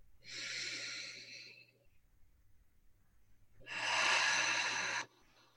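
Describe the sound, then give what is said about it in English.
Two deep, airy breaths in a grief-clearing sound healing session, each a steady, breathy rush lasting over a second, separated by a quiet pause; the second is louder. “Deep breath in with me.”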